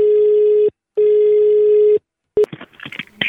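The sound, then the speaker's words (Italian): Telephone ringback from a call placed to homes in Tuscany: two long, steady, buzzing tones separated by a gap, then a brief click and a short tone as the line picks up, followed by a voice answering. “E con queste motivazioni noi andremo a chiamare un po' di gente in Toscana, sentiamo un po' come risponderanno.”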